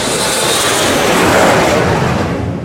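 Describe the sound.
Loud broad roar of an airplane flying low overhead, swelling steadily to a peak around the middle and easing only slightly toward the end, with no voices.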